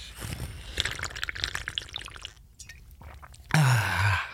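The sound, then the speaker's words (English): Drinking water: soft, wet sips and swallows run through the first half, then a brief quiet gap before a louder breathy exhale with a low, voiced tone near the end. “Maybe it's dehydration. Maybe I should just drink some more water.”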